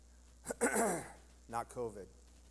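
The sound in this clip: Dry throat clearing from a man, two rough, rasping bursts, the second carrying a brief voiced tone, fairly loud against a quiet background.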